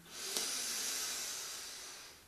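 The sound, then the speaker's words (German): A single slow, deep breath drawn in during a guided breathing exercise, a soft airy hiss that swells and then holds steady, faint and alone with no talking. “Dann atme tief ein.”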